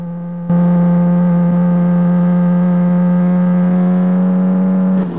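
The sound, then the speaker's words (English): A car driven at top speed along a road gives a loud, steady humming engine drone that cuts in abruptly, holds at one unchanging pitch for several seconds, then stops. “Dave overtakes another vehicle and drives at top speed along the road.”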